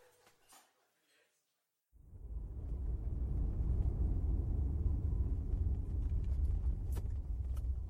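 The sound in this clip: A car's low engine and road rumble swells in abruptly after a few faint brief sounds and near-silence, then holds as a loud, steady drone.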